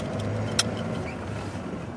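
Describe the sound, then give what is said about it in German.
An old silver Volga car, dented and with rust flaking off its hood, idles outside a house in a Siberian village. Its running engine makes a faint, steady low rumble with one brief click partway through. “Er steht mit seinem silbernen Wolga vor dem Haus. Der Motor läuft.”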